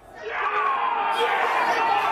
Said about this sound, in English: We get a splattering of cheers, like scatter points on a graph.